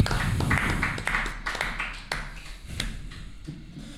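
Scattered applause in a conference hall, irregular individual claps and taps rising out of a low, muffled background, moderately loud and thinning toward the end.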